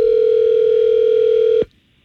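Telephone dial tone heard while redialing a call: a loud, steady single-pitch hum with faint overtones holds unchanged, then cuts off abruptly near the end, leaving near silence.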